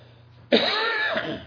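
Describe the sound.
A single harsh cough from a speaker reading scripture aloud, breaking out abruptly after a quiet moment and rasping loudly for about a second before trailing off.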